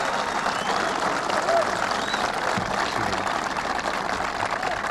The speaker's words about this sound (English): A very appreciative crowd of sailors welcoming the president. Thank you. And as you can hear, he's now about to begin.